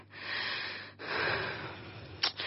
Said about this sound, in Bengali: তুমি এত হাঁপাচ্ছ কেন?